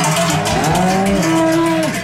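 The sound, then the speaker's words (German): Cattle low during a seasonal alpine drive of about 1000 cows down from the Klausenpass to the Urner Boden, each cow wearing a large bell. Drawn-out, wavering moos carry over a dense, continuous background. “Dann tönt das so. Jede Kuh mit einer Treichel um den Hals.”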